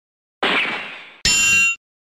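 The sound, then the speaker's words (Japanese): A metal grate is broken apart with a blaster, giving two loud metallic impacts. The first is a bright burst that fades over nearly a second; the second rings with sharp overtones and cuts off abruptly. “やった！格子が壊れた。この隙間なら抜け出せそう。”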